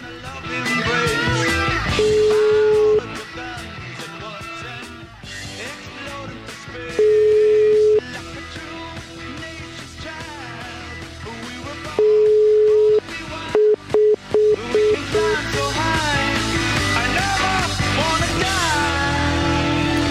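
Telephone tones on an outgoing call: three long, steady ringing tones about five seconds apart, followed by a few short, rapid busy beeps, all sounding over loud continuous music.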